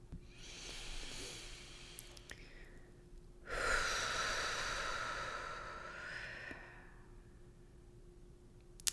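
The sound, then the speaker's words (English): A deep breath in during a guided breathing exercise: one long, soft, airy inhale lasting a few seconds, with no talk over it. “Take a big deep breath in right now.”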